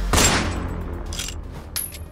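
A gunshot from a gun aimed and fired at a fleeing man's legs: a loud, sharp blast followed by a long rumbling tail.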